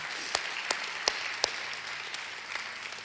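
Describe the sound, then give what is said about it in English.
Applause from a church audience welcoming people into God's family: a steady patter of clapping with a few sharper claps standing out, fairly soft throughout and with no voices. “So can we just put our hands together and welcome people into God's family today?”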